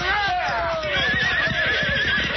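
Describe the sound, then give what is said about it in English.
Horses neigh loudly during a sheriff's posse chase on horseback, with a shrill whinny that falls in pitch over rapid, steady hoofbeats. “Now turn them horses around.”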